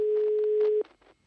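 A telephone ringing tone sounds as one faint, steady mid-pitched beep lasting under a second, then cuts off into near silence.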